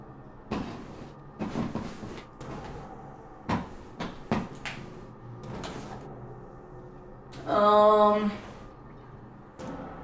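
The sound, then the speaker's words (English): A blocked door in a video game is tried several times, giving sharp knocks and rattling thuds at uneven intervals. Near the end comes a longer, louder, tonal creak-like sound. “I don't think I can open this door, right? Because there's a thing on the other side blocking me”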